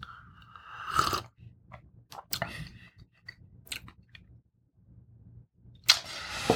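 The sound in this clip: Chewing and crunching as someone tastes a hot food, with a few sharp, crisp bursts separated by quieter stretches of soft mouth sounds. No one talks.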